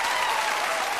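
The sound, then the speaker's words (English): Studio audience applause from the Oprah Winfrey Show: dense, steady clapping from a large crowd, even and loud throughout the brief second with no distinct voices. “And these sounds you're hearing are the actual Oprah audience recordings.”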